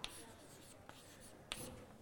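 Faint writing strokes on a board during a physics lecture, with a few brief scratchy taps and scrapes spread across a quiet background and no talking.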